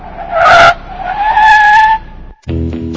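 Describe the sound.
A suspicious car screeches its tires as it pulls up outside a pool hall: two loud, high squeals of skidding rubber, then a low engine rumble.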